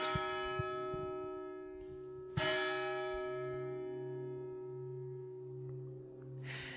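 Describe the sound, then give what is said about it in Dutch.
A church bell rings quietly, its toll humming in a long, smooth decay. A fresh, stronger strike partway through renews the ringing before it fades again into a sustained low hum. “En dat doet toch iets met de ziel om de klok van de kerk te horen.”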